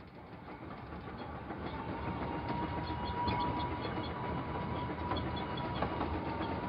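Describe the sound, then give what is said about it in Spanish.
A train runs on rails on the line from Varna to Galatz, giving a steady, fairly quiet rumbling roar with faint rhythmic clattering of the wheels throughout and no voices. “Esto lo escribo en el tren de Varna a Galat.”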